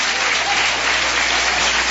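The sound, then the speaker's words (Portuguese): A church audience applauding, a thick, even roar of many hands clapping at once, loud and unbroken from start to finish. “Pode aplaudir ao Senhor Jesus com mais alegria.”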